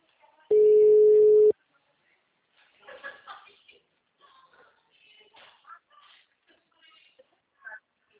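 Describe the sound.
A single steady ring-back tone on an outgoing telephone call, holding one even mid-pitched note for about a second before cutting off, followed by faint, scattered small sounds.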